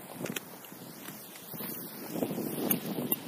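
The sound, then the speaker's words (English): Wind buffeting a microphone, a fluctuating rumble with gusty surges that swell toward the end, fairly faint and with no talk. “Apologize for the wind.”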